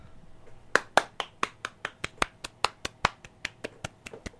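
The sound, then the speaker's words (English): Sparse hand claps from a live studio audience, quiet and evenly spaced: many sharp, distinct claps in a steady beat, with few hands and no cheering or voices. “I don't know if you can hear that, but that's the sound of the live studio audience. Rockin' and Reelin' with Lyra LeBrun is filmed in front of a live studio audience.”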